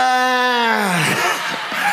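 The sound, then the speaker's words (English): An audience of married people at a live show screams loudly: one high sustained cry slides down in pitch, then dense mixed shouting and cheering fill the rest. “I'm judging the health of your marriage by the decibel of your scream.”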